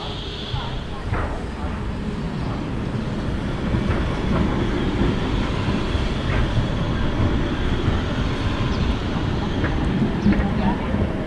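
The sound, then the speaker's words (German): A train passes through with a continuous, steady low rumble and faint rail clatter lasting throughout, fairly loud and unbroken. “So, jetzt fährt hier auch noch gerade die Bahn durch.”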